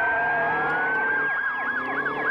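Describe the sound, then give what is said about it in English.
Police car siren wailing in rising and falling sweeps over a steady high tone, loud and continuous, heard during a police pursuit with no voices. “So they get back in the ride, I guess going on to the next location, when the cops turned on the sirens.”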